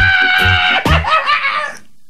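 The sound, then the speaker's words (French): A woman screams as she runs away: a loud, high, strained voice broken into short choppy bursts, then a longer wavering cry that cuts off abruptly into silence. “Qu'est-ce qu'elle a? Pourquoi elle est partie en hurlant comme ça”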